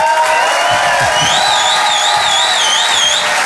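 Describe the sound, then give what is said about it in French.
A crowd gives a comedian an ovation, loud cheering and applause as he takes the stage, with a high, warbling whistle rising above the noise partway through. “Je vous demande de faire un maximum de bruit. Une ovation s'il vous plaît pour Selig.”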